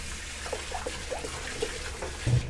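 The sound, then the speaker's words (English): Tap water runs over a pan being rinsed after frying chorizo and pancetta, a steady, moderate rush with small splashes throughout and a slightly louder splash near the end. “So I'm just gonna run that under the tap.”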